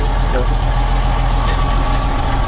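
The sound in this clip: Engine of a vehicle being driven, a loud, constant low rumble and drone that holds steady throughout without a clear break.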